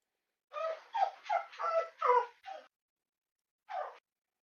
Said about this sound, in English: Someone's gotta go potty. If you need to go and do that, by all means. That's not my dog.